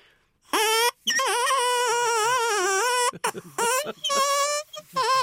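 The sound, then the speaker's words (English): A reedy, squawking hoot comes from a parsnip made into a reed instrument with a straw. It opens with a short burst, then a long wavering tone, then a run of choppy, stuttering blasts. “This is the sound of a parsnip.”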